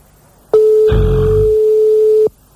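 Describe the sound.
A telephone ringback tone while placing a call in France: one steady, pure mid-pitched tone held for about one and a half seconds, with a short noisy rumble partway through, then silence.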